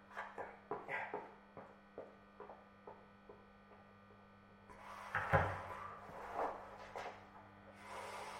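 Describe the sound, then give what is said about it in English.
Kitchen cupboard doors in a break room being opened make a series of soft wooden knocks and clunks, with one louder bump midway, over a steady low mains hum. “Oh, middle cupboard on the left, isn't it? Empty.”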